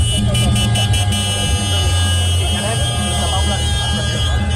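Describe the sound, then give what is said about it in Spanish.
Farm tractors in a slow protest march into central Barcelona give a loud, continuous low engine drone with a steady tonal hum, mixed with indistinct voices. “Esta mañana los agricultores de toda la comunidad han llevado a cabo una marcha lenta de tractores hasta el centro de la capital de Barcelona.”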